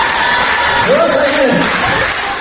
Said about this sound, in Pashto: فرهاد دریا خپلې ګڼې سندرې بیا واورولې چې ښځو او نجونو یې په پوره شور او ولولې هرکلی وکړ